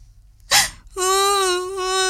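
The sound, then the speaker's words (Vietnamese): A little girl sobbing, a sharp gasping intake of breath followed by a long, loud, steady high-pitched wailing cry, heard alone. “tìm đủ mọi cách dỗ dành cô em gái bé bỏng đang khóc nức nở.”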